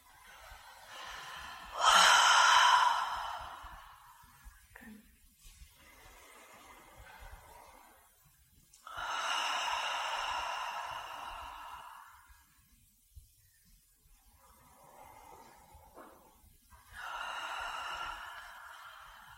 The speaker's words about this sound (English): taking a few deep, audible breaths.